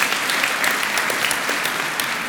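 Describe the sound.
Studio audience applause during a television quiz show, dense and steady clapping that holds at an even level throughout with no voices over it.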